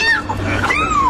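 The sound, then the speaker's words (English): A terrified kitten meows after being rescued by firefighters from a wild ride, giving two short, high, wavering cries in quick succession. “That is the sound of a terrified kitten who went on a wild ride and was rescued by Glendale firefighters.”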